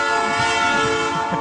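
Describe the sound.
A train horn blares as the train passes, a loud, steady, sustained chord that holds unbroken from start to finish.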